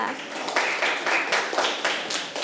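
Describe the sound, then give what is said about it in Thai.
A class of students clapping together for a classmate, producing steady, even bursts of many claps in a regular rhythm that stays at much the same loudness throughout. “ต้องหาที่อื่นเก่งมากค่ะปรบมือให้เพื่อนค่ะ”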